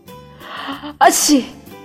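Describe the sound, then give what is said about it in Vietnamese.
A single sneeze: a drawn-out breathy lead-in, then one sharp, loud burst that quickly fades. “Bạch Ngọc Đường đi đến trước cửa, đột nhiên hắt xì một cái”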